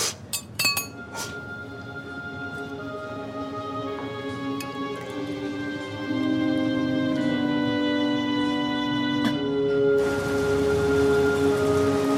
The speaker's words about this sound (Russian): На улице дождь.